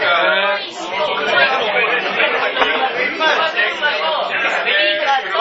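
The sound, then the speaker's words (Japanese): Loud crowd chatter surrounds the speakers, with many overlapping voices babbling continuously into a dense, steady hubbub and no clear pauses. “だんだんちょっと周りがね、思った以上にうるさくなってきた。音が入ってるか心配なんだけど。”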